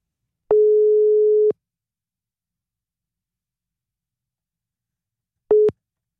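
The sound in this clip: A telephone ringback tone sounds while a call is placed to a contest winner: one steady, mid-pitched electronic tone lasting about a second, a long silent gap, then the next tone cut off almost at once.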